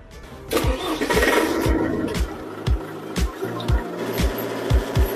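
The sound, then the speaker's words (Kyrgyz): A tractor engine with a reversing gearbox starts and runs into a loud, steady, low chugging with evenly spaced rhythmic pulses. “Бул трактор ревизивный өткөрүү коробкасы менен.”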